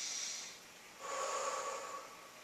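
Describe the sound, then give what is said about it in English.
A deep breath taken during a guided relaxation exercise: a soft airy inhale, a brief pause, then a longer, fuller exhale with a breathy hiss, heard alone without talk. “it begins by just taking a deep breath”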